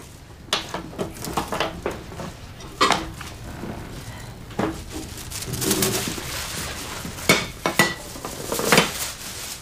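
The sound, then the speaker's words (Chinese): Plates and dishes clatter as they are fetched and handled in a home, with many irregular ceramic clinks and knocks, some sharp and loud, over a soft background. “去拿俩盘子过来”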